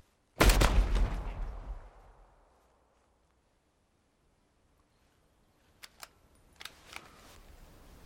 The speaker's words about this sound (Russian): Затем стреляет.